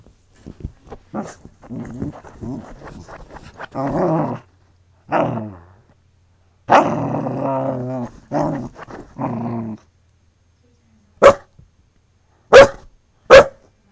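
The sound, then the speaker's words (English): A dog digging at a sofa growls in several long, grumbling stretches with short pauses, then lets out three sharp, separate barks near the end. “But she still insists on trying to dig into it, so let's just have a bit of found sound of Poppy digging the sofa.”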